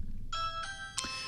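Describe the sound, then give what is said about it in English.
A Ring video doorbell chime plays three clear, ringing electronic notes in quick succession, each sustained and overlapping the next. The chime is faint over a low steady hum. “This is the Ring video doorbell. If somebody rings my doorbell,”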